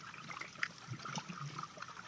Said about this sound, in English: And I am talking over underwater recording from his media safari.